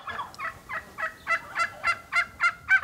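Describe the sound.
Poultry calling in a barn: a rapid, evenly paced series of gobbling, clucking calls that grows steadily louder toward the end, with no talk.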